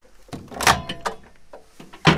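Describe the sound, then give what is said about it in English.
A microwave door swings open and its rotating tray is lifted out, making a few sharp clunks and rattles in quick succession and ending with a louder clatter. “So I'm going to open the microwave and take out this rotating tray.”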